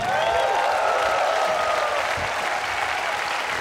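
Audience applause welcoming a performer back: dense, steady clapping from a crowd that holds at an even level throughout.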